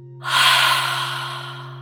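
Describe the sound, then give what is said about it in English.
One long, loud breath of air during a calm breathing exercise: a rushing whoosh that starts abruptly, peaks early, then slowly tapers off as the air is released. “Take a deep breath in your nose, out of your mouth”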